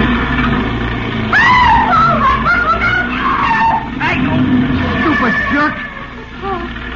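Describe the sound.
Car tires squeal loudly in a skid as the car nearly hits a pedestrian stepping off a street corner, a wavering high screech over a rumbling engine.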